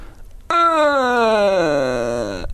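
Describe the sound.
A voice imitates the cry of an alien baby with one sustained, whiny moaning tone of about two seconds. It is rich in harmonics, and its pitch slides slowly downward before cutting off abruptly.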